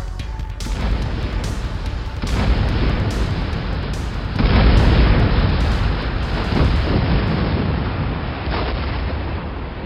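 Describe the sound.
Explosions of grenade vests set off by terrorists: a loud, sustained, rumbling roar with a few sharp bursts, the strongest near the middle, that stays heavy to the end.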